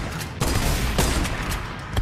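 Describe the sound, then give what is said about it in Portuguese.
Gunfire from two people shooting desperately at a charging zombie creature, one of them with a shotgun: a few loud, sharp blasts break through continuous dense noise. “Os dois abriram fogo desesperados.”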